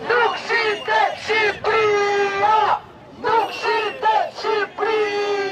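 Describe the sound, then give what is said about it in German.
Albanian protesters marching in the evening toward the government seat chant a slogan against the government, a crowd of voices shouting in strong rhythmic phrases, with two loud bursts of chanting separated by a brief pause. “Albanien ist nicht zu verkaufen, rufen die Demonstranten.”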